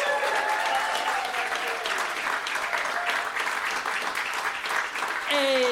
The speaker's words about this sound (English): Can you please put your hands together?